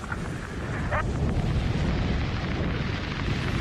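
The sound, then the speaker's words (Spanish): Fire erupting in the Apollo 1 spacecraft cabin as a radio drama effect, a steady loud roaring whoosh with a brief crackle early on. “¡Fuego! ¡La cabina se ha incendiado!”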